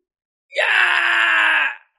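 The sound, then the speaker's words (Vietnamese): A man's anguished cry of pain as he is struck repeatedly in the belly during a martial-arts bout on an arena stage. It is a single loud, strained, sustained wail lasting just over a second, heard alone. “Thái Đà hét thảm, thanh âm xương cốt vỡ vụn từ trong cơ thể truyền ra”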